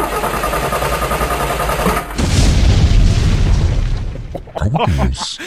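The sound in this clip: A loud booming separator jingle: a steady droning tone runs for about two seconds, then a heavy explosive boom crashes in and rumbles on before fading.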